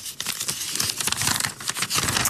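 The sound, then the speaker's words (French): Crisp crinkling and rustling of a folded paper slip being picked from a pile and unfolded: a dense, continuous run of sharp crackles lasting the whole moment, fairly loud, with no talk. “ils sont pliés, et je vous invite à piocher, on va voir ce que ça raconte.”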